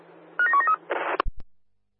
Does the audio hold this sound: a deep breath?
no